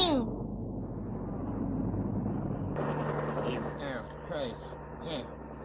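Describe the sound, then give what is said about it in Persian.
A news helicopter flying overhead makes a steady rumbling rotor drone throughout, with people talking over it in the later part. “برای نجات ما نیومدن، این هلیکوپتر مال قسمت اخبارمونه.”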